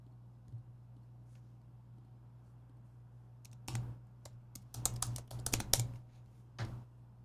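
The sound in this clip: Typing on a computer keyboard: after a quiet stretch with a low steady hum, clusters of crisp keystroke clicks arrive in irregular bursts, denser toward the end.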